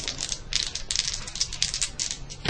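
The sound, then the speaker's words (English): Faint, quick riffling rattles of a deck of playing cards being shuffled during a tabletop game, coming in many short crisp bursts with brief gaps between them. “We have two other card decks, since we drew the Joker on that one. I know. I will. I just like shuffling.”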